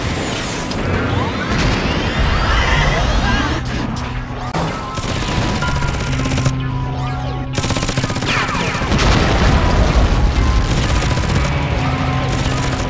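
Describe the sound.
Explosions and rapid gunfire as an anime mobile suit destroys an enemy base: a dense, continuous barrage of blasts, crashes and crackling shots that stays loud throughout, with steady low tones humming under the chaos.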